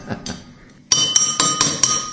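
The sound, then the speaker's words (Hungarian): Drinking glasses holding a carbonated drink are tapped on their sides. Two soft taps are followed by several bright, ringing glass clinks in quick succession, each leaving a sustained high chime. “akkor megindul a szénsav felszabadulása. Tehát gyakorlatilag elég jól bírják a poharak az ütögetést.”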